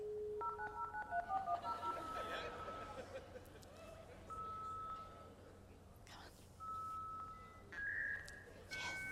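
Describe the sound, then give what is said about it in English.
A dial-up modem connects to the internet: a quick run of touch-tone dialing beeps, then warbling handshake tones, high whistles and hissing static that carry on to the end, fairly faint. “20 years ago, we were fighting for a free AOL CD 20 years ago. That's what we were fighting for. And the internet sounded like this.”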